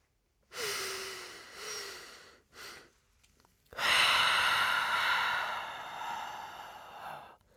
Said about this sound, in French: Pour commencer, nous allons compter jusqu'à 3 à l'inspire et à l'expire. Je vous accompagne.